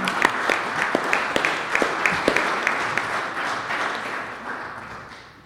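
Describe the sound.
Audience applause at a talk: crisp individual claps stand out over a thick layer of clapping, which slowly thins and fades toward the end.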